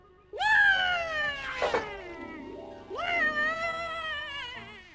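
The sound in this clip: A cat meows twice, each a long, loud, drawn-out call, the first wavering and sliding downward in pitch, the second steadier and trailing off.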